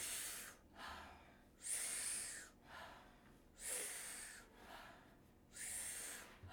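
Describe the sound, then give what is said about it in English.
Wim Hof breathing exercise done lying on the ground: three forceful, rushing inhales alternate with shorter, softer exhales in a steady rhythm, with no talking. “we're gonna do the Wim Hof breath. Powerful inhale, soft exhale. It sounds like this.”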